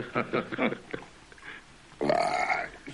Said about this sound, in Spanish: Tras el eructo